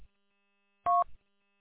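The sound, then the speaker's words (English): A single short dual-tone electronic beep from a phone signalling an incoming call, followed by a brief low knock, set against near silence with a faint steady high whine. “Oh, now I got a phone call. Every time I get on the radio, I get a phone call.”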